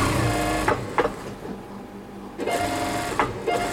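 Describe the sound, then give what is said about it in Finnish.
A sewing machine stitches silk velvet with a brisk mechanical whir and a few sharp clicks. It drops to a quieter stretch midway, then picks back up to full running. “Nyt jatkui taas ompelu ja tässä ommellaan.”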